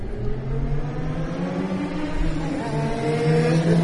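Vehicles drive away through Akihabara, Tokyo, making a steady, low engine rumble and whir with a faint humming drone. The noise stays fairly even and continuous throughout.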